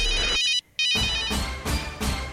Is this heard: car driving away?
no